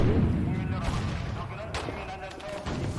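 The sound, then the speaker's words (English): Air-raid bombardment strikes a building during a school recital in a video, heavy blasts and booming impacts rolling through a dense, continuous roar, with sharper bursts standing out now and then. “And then suddenly the sound of the country's emergency alerts can be heard. And the building they're in is bombarded by air raids.”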